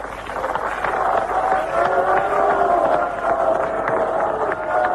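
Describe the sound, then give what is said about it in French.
A large crowd cheers in jubilation at Chad's midnight independence proclamation, a dense, continuous roar of many voices that holds steady throughout without clear breaks. “C'est dans une grande liesse que les Tchadiens ont accueilli cette proclamation de l'indépendance.”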